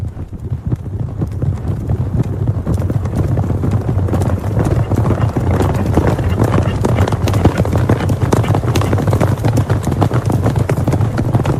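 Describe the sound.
Rapid, steady clip-clop of horse hooves carries on without pause for the whole stretch, many hoofbeats packed together over a low, constant hum, with voices faintly underneath.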